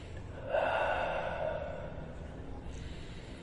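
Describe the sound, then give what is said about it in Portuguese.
Slow breathing in a breathing exercise, drawn in through the nose and let out through the mouth. A soft, airy rush of breath swells, then slowly fades into a quiet, steady hiss. “Fecha os olhos e começa a respirar de maneira assim.”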